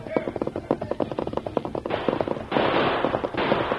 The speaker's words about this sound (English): He fired several warning shots that hit the ground close to men who sought to bring their guns to bear.